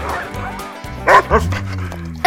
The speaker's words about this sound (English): Down, girl. Did I mention I have a dog named Suki? She's a Malamute